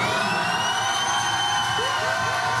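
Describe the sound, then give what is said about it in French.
Audience at a live show cheering and shouting, a loud, steady roar of crowd noise with shrill whistles running over it throughout, without pause. “Donc s'il vous plaît, faites un maximum de bruit pour lui déjà.”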